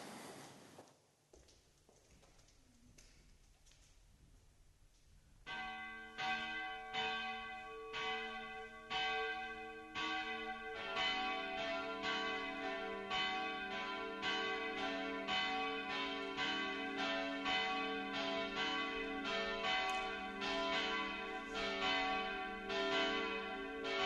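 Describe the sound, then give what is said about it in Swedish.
Church bells ring to call people to a service. After a quiet start a single bell begins striking, then more bells join to form a steady, overlapping peal of repeated clangs. “Men nu låter vi klockorna ringa oss samman till gudstjänst.”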